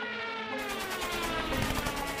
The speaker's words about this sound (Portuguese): Com o alvo na mira, dispara a primeira rajada de metralhadora.